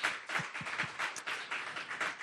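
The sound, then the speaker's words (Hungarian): Church audience applauding the male worship musicians after a worship set: a quiet, steady patter of many hands clapping, unbroken throughout. “De szerintem adjunk a fiúknak is egy tapsot, mert nagyon-nagyon jó volt,”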